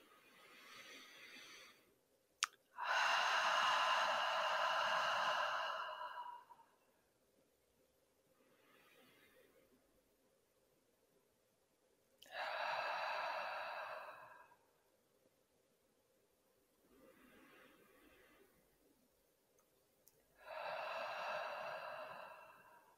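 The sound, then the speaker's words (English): Deep breaths taken in through the nose and let out through the mouth: three loud, long breathy exhalations separated by fainter, shorter inhalations, with quiet pauses between. “So let's just take a couple of deep breaths in through our nose and exhale through our mouth.”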